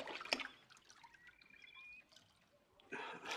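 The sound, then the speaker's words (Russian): Water poured from a small copper ladle onto a geranium gives a faint drip near the start, quiet watery trickling, then a brief broader splash of water at the end. “Берет небольшой медный ковшик, зачерпывает воду, поливает герань.”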